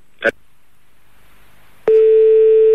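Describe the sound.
Call-waiting tone on a radio station's switchboard telephone line: a brief click, a short quiet pause, then a loud, steady mid-pitched tone that holds unbroken to the end.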